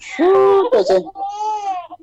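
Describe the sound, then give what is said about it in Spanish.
A small child is crying, with loud, strained wails that waver in pitch and break off briefly between sobs before trailing into a softer whimper. “ese chiquito está llorando”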